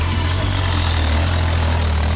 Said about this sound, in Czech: motorka.